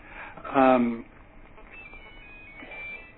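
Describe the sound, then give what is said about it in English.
A mobile phone rings during a meeting, giving a loud burst of bright stacked tones lasting about half a second. Low room murmur and faint tonal traces follow. “Sorry, that was my phone, Chair.”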